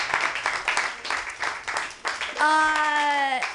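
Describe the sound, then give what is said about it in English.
Comedy club audience clapping, a quick, uneven patter of many hands, then a single voice breaks in with a sustained cheer over the final stretch. “You guys, clap it up for all the comedians you've seen tonight.”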